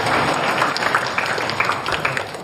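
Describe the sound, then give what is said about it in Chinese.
An audience applauds as the founder of a white crane conservation area in Nanchang is welcomed on stage. The clapping is dense and sustained, then tapers off slightly at the end. “下面让我们有请南昌五星白鹤保护小区创始人周海燕老师上台发言，大家掌声欢迎。”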